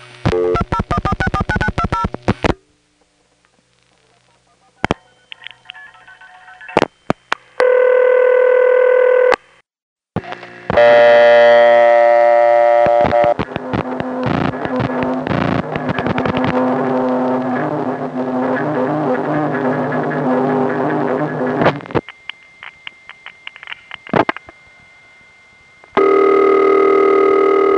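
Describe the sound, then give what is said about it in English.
Telephone line sounds from a New Jersey call and a call from a home phone: steady line tones, touch-tone dialing, ringing tones and switching clicks. Loud passages alternate with near-silent gaps. “here's a New Jersey call, and then a call from Ben's house, each of which were used in the preceding examples.”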